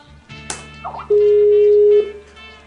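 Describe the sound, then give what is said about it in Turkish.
A telephone call rings out as a single steady, mid-pitched tone lasting about a second, loud against faint background noise, with quiet clicks before it. “Şimdi arıyorum arkadaşlar.”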